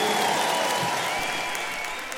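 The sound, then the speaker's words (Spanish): Audience applause for musicians, a dense, steady clatter of many hands clapping together that fades slightly toward the end. “Un aplauso para ellos y para todos los músicos de este país.”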